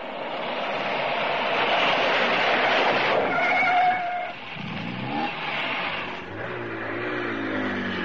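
A truck engine drones loudly and steadily as the vehicle pulls over, its tone shifting partway through before settling into a lower, even hum, with no voices.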